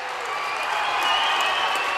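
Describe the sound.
Basketball arena crowd roaring and applauding after a dunk, a dense, steady wall of cheering that holds at full strength for the whole stretch.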